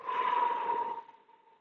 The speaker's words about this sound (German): Tief durch die Nase ein. Und durch den Mund langsam wieder ausatmen.